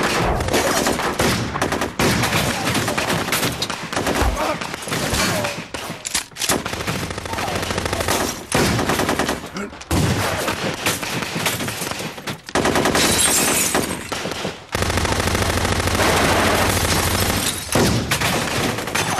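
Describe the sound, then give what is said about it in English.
Rapid gunfire from a shootout between gunmen and police marksmen: dense, loud volleys of shots and bursts that run almost without pause, with heavy low booms underneath and no talk. “Police marksmen aim their weapons at them. There is a tense standoff. Then Bryant opens fire.”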